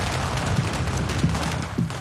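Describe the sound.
Firecrackers go off at a traditional family ceremony, a dense, continuous rattle of loud crackling pops with no gaps and a few sharper bangs near the end.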